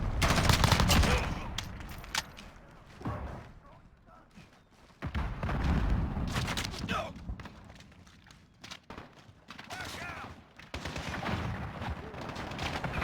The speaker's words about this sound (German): Schießt zuerst, bam, tot. Da hat er in den Kopf geschossen.